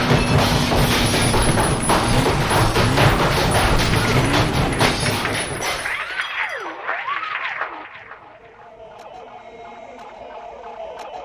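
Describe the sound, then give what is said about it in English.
A rock crusher smashing a computer: loud, dense grinding crunch mixed with glassy shattering and thuds for several seconds, then giving way to warbling electronic tones that fade out. “Well, let's get the rock crusher and put it to the test. Is there some way of testing my software that doesn't involve a rock crusher? Sorry. Just checking. Okay, let's go.”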